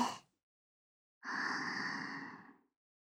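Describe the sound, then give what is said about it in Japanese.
Slow, deep breathing during a guided breathing exercise: the soft tail of one breath, a silent pause, then a long, airy breath of over a second that fades gently away. “吸って。吐いて。吸って。”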